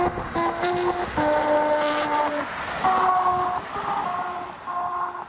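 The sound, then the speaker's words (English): Humming musical tones rise from a singing highway in Friesland, Netherlands, as cars drive over its grooved surface and play the regional anthem. A simple tune of sustained, buzzy notes changes pitch over faint road noise. “I think that's the sound of a highway in Friesland. It's the Friesland region playing their national anthem,”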